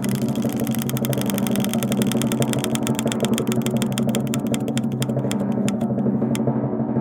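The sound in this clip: A spinning prize wheel gives off rapid, even ticking over a steady low hum. Toward the end the clicks spread farther apart and then stop.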